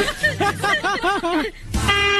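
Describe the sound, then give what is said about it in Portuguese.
A strange car horn plays a quick run of warbling notes that rise and fall, then ends in a loud, steady honk. “Nossa, mas que buzina é essa, cara? Que buzina estranha, cara.”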